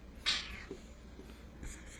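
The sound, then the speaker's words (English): A pen scratching on paper in a few short strokes: one sharper, louder scrape near the start, then fainter, softer scratches trailing after it. “¿Qué estás escribiendo? ¿Qué estás escribiendo? What are you writing?”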